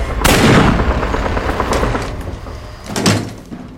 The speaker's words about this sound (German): Sie hebt ihre Waffe und drückt ab.